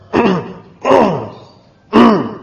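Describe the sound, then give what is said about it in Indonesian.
A person clears their throat three times with short voiced 'ahem' bursts, demonstrating a way to finish urinating in the bathroom. Each burst is loud and falls in pitch, with brief pauses between them. “Ya, berdehem.”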